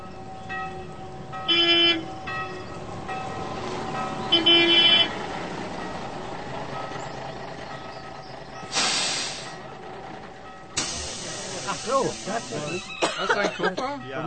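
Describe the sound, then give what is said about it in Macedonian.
Inside a moving bus: a steady low engine rumble with rattles, broken by sharp bursts of air-brake or door hiss. Two long hissing releases stand out near the end. “Представете си ја ситуацијата и слушајте што се случува во автобусот.”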